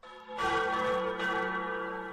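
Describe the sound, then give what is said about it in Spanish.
Church bells of the Cathedral of Valencia ring on a festive Sunday. Two loud strikes set off rich, sustained metallic tones that overlap and hum on between the strikes, with no voices. “Son las campanas de la Catedral de Valencia invitándonos a la fiesta.”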